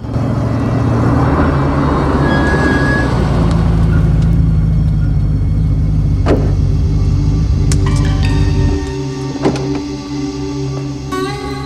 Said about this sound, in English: Truman pulls his car over at the curb of a quiet street.